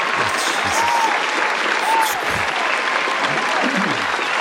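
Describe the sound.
A studio audience applauds in a dense, steady wash of clapping that holds at full strength throughout.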